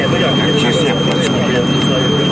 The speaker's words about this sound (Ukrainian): Останні приготування і обшита машина від ворожих дронів і мін вирушить у дорогу.